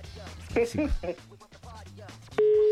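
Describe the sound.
A telephone call tone as a number is redialled: people talk first, then a single loud, steady, mid-pitched beep begins near the end and holds.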